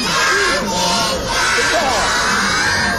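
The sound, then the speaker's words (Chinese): Kindergarten children, 38 of them in red jerseys led by teachers, shout and cheer for a basketball team in the arena's assembly area, a loud, continuous mass of high, excited voices rising and falling. “在 UBA 的集结区，38名东城幼儿园的孩子身着红色小球衣，在四位老师带领下不停地为将军队加油。”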